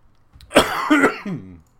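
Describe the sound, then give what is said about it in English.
A person coughing: a couple of harsh bursts in quick succession, then a shorter voiced, throaty rasp at the end, with nothing else around it. “excuse me. I don't know why I've suddenly developed a cough.”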